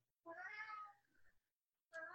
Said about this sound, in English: We got some kitties in the back.